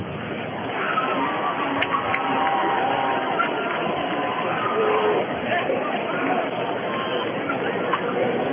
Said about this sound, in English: Big crowd tonight on both sides. You're taking this one in. Excellent Brenham crowd.